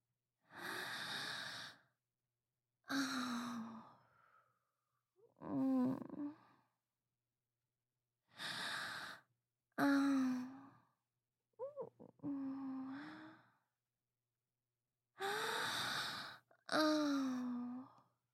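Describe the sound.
Gentle blowing of breath comes as eight soft, airy exhalations spaced apart by pauses, some carrying a faint voiced sighing edge, with silence between them.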